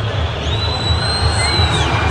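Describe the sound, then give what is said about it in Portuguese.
A large football crowd at Arena MRV boos the number 13 defender as he leaves the pitch. The jeering forms a loud, continuous low roar that holds steady throughout. “Totalmente vaiado o Lianco aqui na Arena MRV, o camisa número 13.”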